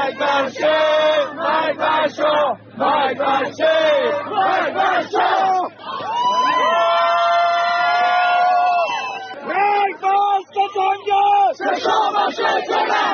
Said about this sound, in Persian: مانند تجمعات وابسته به اقلیت‌های قومی، گروه‌های سیاسی چپ و یا مانند این صدای هواداران سازمان مجاهدین خلق.